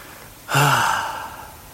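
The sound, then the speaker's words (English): A single heavy, voiced exhale like a sigh starts about halfway in and tapers off slowly, with low breathy tone and no talk, fitting heavy breathing in an intimate setting. “Do you like it when you hear me breathing heavy?”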